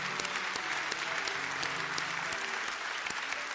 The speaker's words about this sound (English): Would you give a hand for those who stood and made their decision this morning?